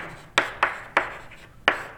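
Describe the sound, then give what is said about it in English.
Four sharp, dry strokes of writing during a physics lecture on angular momentum, each a crisp tap with a short scratchy tail, irregularly spaced and heard alone without talk. “this perturbation that we're talking about, and I'll go back to writing this as minus Q”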